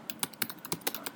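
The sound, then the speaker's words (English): Rapid keystrokes on a computer keyboard as someone searches on Google, a steady run of crisp, fairly quiet clicks with no voices. “This is the sound of me Googling it.”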